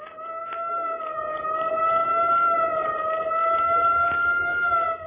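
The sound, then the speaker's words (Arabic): A police car siren sounds loudly for the whole clip as a sustained tone with stacked harmonics, wavering slightly in pitch without a break. “ايه ده بوليس باين كده.”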